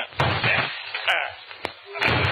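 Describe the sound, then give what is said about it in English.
Police break down a door with repeated heavy blows: several loud thumps and slams separated by short pauses, each hit a dull, forceful crash. “Are you sure this is Joan Thompson's room, Inspector Farley? Sure, I'm sure. And maybe she committed suicide, Inspector, eh? Huh? Say, you might be right. Come on, let's break down the door.”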